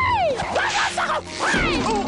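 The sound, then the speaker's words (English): Cartoon sound effects for a horse starting to gallop and slamming into the pole it is tethered to: sweeping, whistle-like tones that slide downward, mixed with a few sharp impact hits, all loud and busy. “At the end of the preview for Disney's Home on the Range, a horse starts to gallop, not realizing he's tethered to a pole.”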